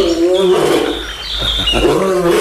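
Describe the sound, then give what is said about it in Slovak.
An old man imitating a bear's growl: a loud, rough, low roaring voice that runs through the whole clip, dipping briefly midway before swelling again. “Dedo! Viete ešte mručať ako medveď?”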